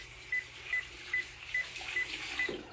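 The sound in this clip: Water runs from a tap while hands are washed before surgery, a steady soft hiss throughout, with six short, evenly spaced high beeps sounding over it.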